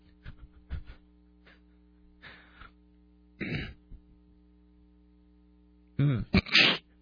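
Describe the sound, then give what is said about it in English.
Throat clearing in a few short, rasping bursts, the loudest cluster near the end, heard over a steady low electrical hum with no talk. “I'm sorry, I have something in my throat.”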